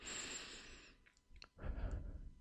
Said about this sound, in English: Now I'm taking another one. God graced me with another breath.